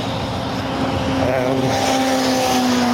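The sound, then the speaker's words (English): Motorway traffic heard from a bridge: a steady, loud roar of passing vehicles with a low engine hum and a faint tonal whine running underneath. “I'm just crossing over a motorway. Don't worry, I'm on a bridge, but there might be some noise.”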